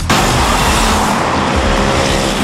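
Busy city traffic in São Paulo, where motorcycles weave among vehicles, makes a loud, continuous roar of engines with a rushing, passing quality throughout and no talk.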